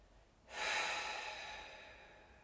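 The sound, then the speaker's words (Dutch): A deep breath at the start of a seated body-scan meditation, in through the nose and out through the mouth. It is one soft, airy rush that begins abruptly, peaks early and then slowly tapers off, with no talking. “We starten de bodyscan met een diepe inademing langs de neus en uitademen langs de mond.”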